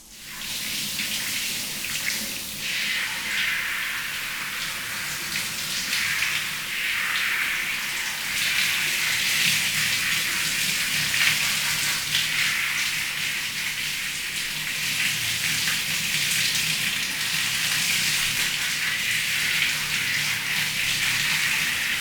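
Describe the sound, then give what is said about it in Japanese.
Shower water running steadily while hair is rinsed at home, a continuous bright hiss of spray that keeps an even level throughout. “そしたらシャワー貸して。 え、髪の毛流してくれるの？”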